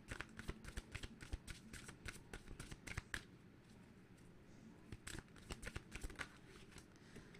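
Slippery tarot cards being shuffled and handled: many quick, crisp riffles and slaps in rapid runs, a brief quieter lull midway, then more brisk flicking, all fairly faint.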